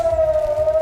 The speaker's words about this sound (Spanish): Es el sonido de las sirenas que saltaron después de que se interceptara el lanzamiento de misiles desde Irán.